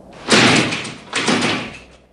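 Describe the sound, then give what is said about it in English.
A locked glass door rattles as its bar is pulled at a windy filling-station kiosk. Two loud, rattling jolts come in quick succession, each tailing off briefly, with no voices. “He pulls the bar but finds that it's locked.”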